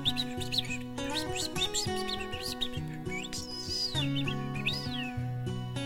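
Small birds, a male and a female under a tree at dusk, chirp and trill in many quick high calls, some sliding up and down, over steady low musical tones throughout.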